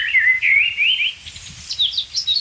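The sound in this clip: A Eurasian blackbird sings in an oak tree, a fluid run of clear, varied whistled phrases that swoop up and down in pitch, loud and unaccompanied by talk.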